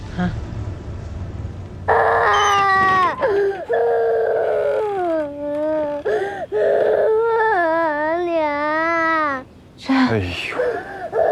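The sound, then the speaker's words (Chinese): A child cries and wails in long, wavering, high sobs that rise and fall, nearly without pause over about eleven seconds, with a few brief breaks for breath. “行了，不哭啊！好孩子，不哭。行了，不哭了。”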